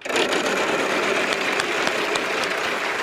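A game show prize wheel spins with rapid, even clicking ticks over a steady wash of crowd noise. The clicking continues without a break throughout.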